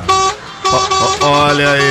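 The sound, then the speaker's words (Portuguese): Car horn honking on a road in São Paulo state, a few short honks followed by one longer held blast, loud and steady-toned. “Deixar um buzinaço aí pra turma, hein?”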